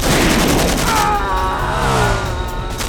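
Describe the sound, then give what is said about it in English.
Gunfire from a semi-automatic revolver in a video game: loud, rapid shots blur into a dense, continuous blast of game sound with no gaps. “This is a semi-auto revolver!”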